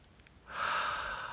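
A single deep breath drawn in during a guided breathing exercise, a soft, airy inhale that swells after a quiet moment and holds steady for about a second.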